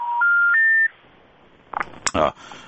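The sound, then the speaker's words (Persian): Three rising electronic tones mark a phone call being cut off. Each tone is short and steady and steps higher than the one before. A pause follows, then a few short crackling bursts. “متاسفانه که همکار تکنیکی اشاره میکنه که تماس ما قطع شد با مروه جان.”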